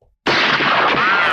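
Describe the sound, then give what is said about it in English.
A single shot from an 1886 Winchester rifle: an abrupt, harsh blast that stays loud and roaring for about a second instead of dying away quickly. “That was a Christmas bullet. What kind of gun was that? Was that fired that off? Was a Winchester, an 1886 Winchester.”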